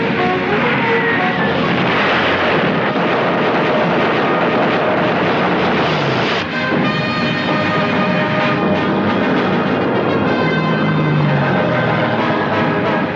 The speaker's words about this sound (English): Two more planes head down the fjord. The anti-aircraft gunners continue to fire on them, but another Mosquito gets through and bombs the cliff face.